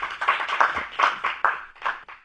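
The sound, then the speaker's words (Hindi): Applause welcomes a performer to the stage at a Hindi poetry recital. The claps come as separate, uneven bursts in a loose rhythm, rather than a dense roar, with no talk over them. “अब मंच पर आमंत्रित कर रही हूँ नव नित्य विनायक को, करतल ध्वनि से हम स्वागत करेंगे।”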